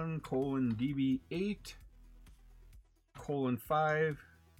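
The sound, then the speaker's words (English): Soft clicks from a laptop keyboard tap out an IPv6 address, faint and scattered, partly under a man's voice and clearer in a short pause between his speech. “I'm going to go ahead and type that in”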